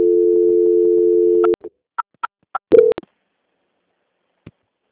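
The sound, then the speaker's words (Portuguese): Telephone tones play while a call is transferred: a steady tone for about a second and a half, then four short beeps and a slightly longer tone, followed by silence and one faint blip. “Só um momento que eu vou transferir a ligação. Transferência.”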